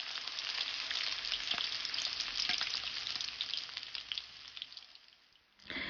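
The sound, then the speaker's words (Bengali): Chicken pieces sizzle in hot oil in a frying pan, with the oil raised to 170 degrees. The crackle is dense and continuous with fine popping throughout, fairly faint, and thins briefly near the end. “মুরগির মাংস নামিয়ে নেওয়ার ঠিক আগে আগে তেলের তাপমাত্রা বাড়িয়ে 170 ডিগ্রি করে নিন।”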